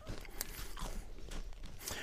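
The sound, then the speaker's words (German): Crunching as someone eats a biscuit: irregular crisp bites and chewing, a few sharper cracks among softer mastication sounds, moderately quiet. “Deswegen habe ich gesagt, ich esse den Keks”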